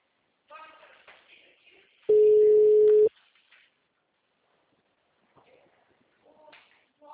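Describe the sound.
A telephone ringback tone sounds while a call is being placed: a single steady, even beep of about one second, with faint talk before and after it.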